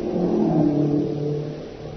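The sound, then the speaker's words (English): Engine drone of Japanese military staff cars passing along a town road toward the west gate, a steady mid-pitched motor hum that swells and then eases off slightly. “Wait, let those cars pass. Only the Japs have motor cars here.”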